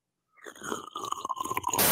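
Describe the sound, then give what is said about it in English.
ASMR drinking sounds: a quick run of wet sips, small mouth clicks and swallows over about two seconds, ending in a brief burst of hiss. “Drinking ASMR.”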